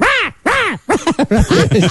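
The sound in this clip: A person's voice imitates a blue jay's call: two long, harsh, arching squawks, then a quick run of shorter squawks, loud and alone.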